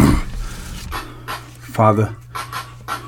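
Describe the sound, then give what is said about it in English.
Heavy panting: a rhythmic series of quick, breathy inhales and exhales, with a brief voiced sound in the middle. “Oh, I gotta breathe.”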